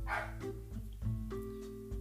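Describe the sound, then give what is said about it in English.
An excited dog barks at someone arriving home, giving several short, sharp barks in an uneven rhythm, some close together and others spaced apart. “I apologize for the doggy barking, but he's excited that my dad's home.”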